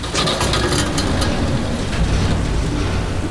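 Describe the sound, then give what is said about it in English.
An elevator motor burns out in a flooding mine shaft as the cage shudders to a stop, a dense, steady mechanical roar with rough grinding and crackling bursts throughout. “the motor on the elevator burnt out as the cage shuddered to a stop with Manick still inside”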